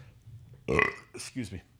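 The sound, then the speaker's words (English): A single loud, low burp, deep and rough, followed by a short burst of voice sounds. “why do you keep burping?”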